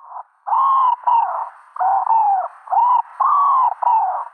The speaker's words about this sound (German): dann kommt man auf die richtige Art, nämlich die Ringeltaube. Ich spiele sie nochmal ab, dann könnt ihr alle da draußen nochmal hören.